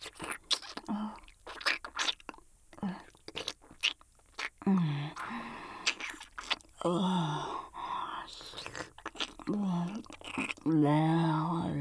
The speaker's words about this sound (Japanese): ああ、うん、太い指や、うん、関節のとこも舐めくる。